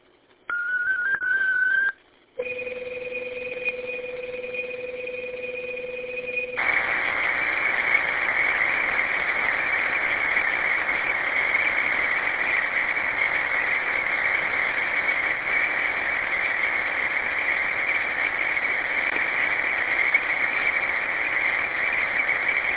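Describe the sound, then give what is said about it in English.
Digital data transmission tones sent over radio: a short high whistle-like tone, then a steady pair of pure tones, then a long, even, buzzing data signal that continues unchanged to the end. “Stand by for digital traffic. This is KGTC. Digital traffic is as follows.”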